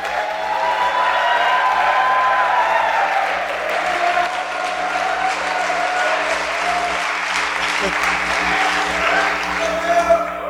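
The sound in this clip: Audience applause welcoming two friends to the stage to talk about their friendship: a thick, continuous wash of many hands clapping, sustained at a steady, loud level for about ten seconds over a faint low hum.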